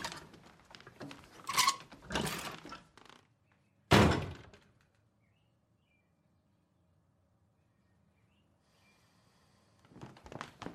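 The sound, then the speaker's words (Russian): A glass jar holding buttons and a medal is set into a cupboard and a uniform is hung in a wardrobe: a few rustling knocks, then one sharp, loud thunk, a long quiet stretch and faint handling noises at the end. “Бросив орден в банку с пуговицами, ставит ее в шкаф. Вешает в шкаф форму.”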